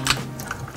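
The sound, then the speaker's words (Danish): A computer keyboard gives a few quick, faint key clicks as a woman plays a computer game at a weekend gaming gathering in a shopping centre. “Det, du kan høre her, det er lyden af et tastatur.”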